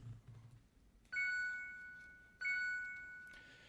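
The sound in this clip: A bright electronic chime sounds repeatedly as the time-up signal when a debater's seven-minute speaking slot runs out. Each strike rings clearly and decays slowly before the next, with no voices over it.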